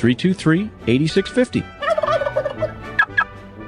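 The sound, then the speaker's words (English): Turkeys gobbling in a quick series of loud, warbling, bubbling calls that rise and fall in pitch, with short pauses between the bursts. “And so Thanksgiving was saved because Eustace Emery invented the Plymouth Arrow and recaptured the turkeys.”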